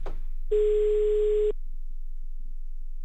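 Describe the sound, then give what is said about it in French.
Telephone ring tone of an outgoing call that goes unanswered: a single steady, mid-pitched beep lasting about a second, standing alone over a faint low hum. “Oh, puis il décroche pas, là, Barchon, alors.”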